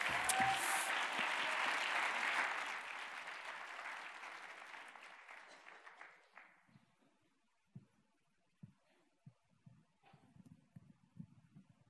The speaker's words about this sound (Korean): 우리 졸리백 자매님 나오셔서 귀한 찬양해 주실 때 우리 한번 큰 박수로 환영해 주시기 바랍니다.